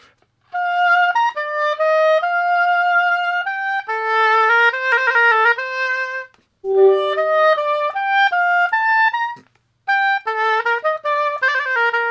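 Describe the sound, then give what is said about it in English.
An oboe plays an ordinary melody alone in three phrases separated by short pauses. Its clear, reedy sustained notes move up and down in steps at a moderate volume. “Because normally you hear this, you know, sort of oboe sounds like this.”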